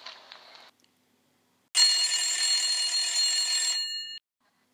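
A telephone ringing with one sustained, bright electronic ring of about two and a half seconds. It is heard alone, after a short faint sound and a quiet gap.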